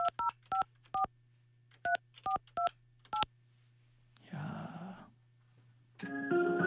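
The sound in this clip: Eight touch-tone beeps of varying pitch are dialed in uneven groups over a low, steady hum while a call is connected. A brief noisy rustle follows, then a loud buzzing ring tone begins.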